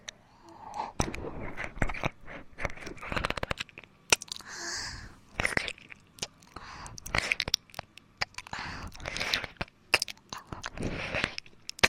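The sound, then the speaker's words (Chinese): Someone eats crunchy food, with many crisp bites and crunching chews in an irregular rhythm. The crunches are soft overall, each one sharp, with no talking. “好想吃一口呢，可以吗？要不说话啊，那我就吃了。”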